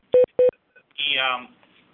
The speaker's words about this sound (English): I don't know what's going on with this beep, but sounds like a battery issue.